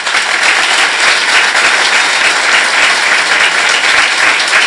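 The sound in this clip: Loud, sustained audience applause at a meeting, given in honour of someone. The thick, continuous clapping keeps a steady level throughout, with no pause or swell.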